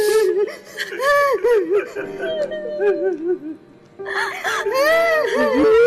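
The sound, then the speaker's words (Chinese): A woman sobs and wails on seeing her son. Her high, wavering cries come in shaky bursts and pause briefly before returning louder and more drawn-out near the end. “见到儿子那一瞬间，这个阿姨一下子全释放出来了。我觉得这可能是她这么多年哭得最痛快的一次。”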